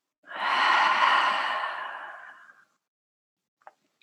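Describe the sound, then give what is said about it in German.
A slow, deep breath heard as one long, airy exhalation that swells and then fades, followed by near silence. “Und dann atmen noch einmal vollständig ein und wieder aus.”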